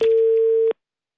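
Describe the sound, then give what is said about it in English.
A telephone busy tone on a call to an engaged number: a single steady, mid-pitched beep lasting under a second, then silence. “The number you have dialed is busy. Please try again later.”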